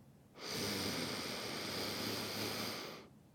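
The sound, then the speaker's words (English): A deep breath drawn during a guided breathing exercise: one long, airy, hissing breath lasting about two and a half seconds, soft and steady, with no voices over it. “I would like you to start by taking 5 deep breaths with me.”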